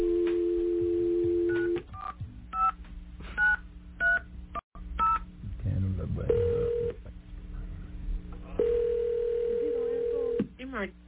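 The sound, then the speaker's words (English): A landline dial tone holds steady, then several short touch-tone key beeps mark a number being dialed, followed by longer ringing tones on the line. “I'm going to go ahead and dial a number now.”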